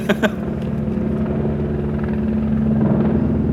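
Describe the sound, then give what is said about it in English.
Helicopters fly overhead, making a loud, steady, throbbing rotor drone with a deep rumbling low end that holds for the whole stretch, with a couple of faint clicks at the start and no voices. “Man, the copters are coming for us again. Coming to shut us up for speaking the truth.”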